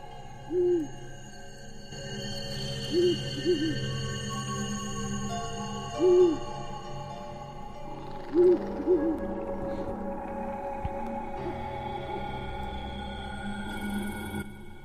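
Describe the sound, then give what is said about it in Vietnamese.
An owl hoots from a tree branch: a series of low, soft hoots, some single and some in quick pairs, spaced a few seconds apart over a steady low drone. “Ở trên cành cây gần đó, tiếng con chim cú lại vang lên”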